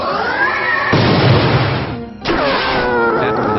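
A video game battle attack effect for a ghost-type move called spirit force, a loud, continuous, lo-fi rush of noise with warbling tones that briefly drops out about two-thirds through, then resumes.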